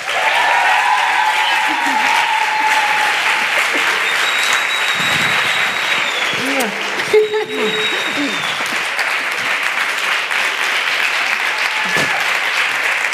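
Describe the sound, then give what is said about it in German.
Audience applause and cheering greet a guest on stage: sustained, loud clapping from a large crowd runs throughout, with occasional shouts and voices rising over it. “Macht mal richtig Lärm für Irina Schlauch.”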